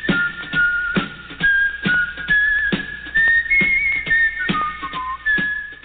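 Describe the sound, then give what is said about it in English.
Weird whistling outside: a wavering, tuneful whistled melody that slides up and down in pitch, with regular soft thuds beating beneath it. “I heard weird whistling outside.”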